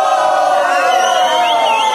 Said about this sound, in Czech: Tak například, když se vám něco nebude líbit, všichni zvoláte sborem fuj, prosím, nacvičme si.